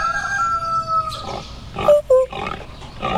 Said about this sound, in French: Il y avait une basse-cour avec des poules, des coqs